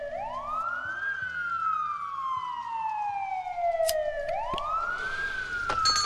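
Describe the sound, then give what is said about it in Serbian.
A police siren wails in the distance, heard from inside a quiet bar. Its pitch slides up, falls slowly over a long stretch, then climbs again in a smooth, continuous cycle. “Iz daljine je dopirao zvuk policijske sirene.”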